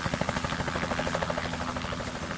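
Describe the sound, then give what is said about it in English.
A helicopter flies into the mountains of Cape Town carrying work teams. Its loud, steady rotor thrum has a fast rhythmic chop over a dense engine roar, with no talking. “Now, there are no roads up into those mountains. The only way up there is by helicopter.”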